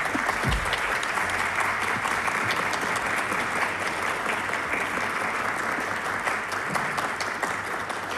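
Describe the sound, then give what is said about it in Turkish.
Audience applause at a Turkish folk music concert, as a choir conductor is introduced: dense, steady clapping from a crowd, even and continuous throughout. “takdim ediyorum alkışlarınızla”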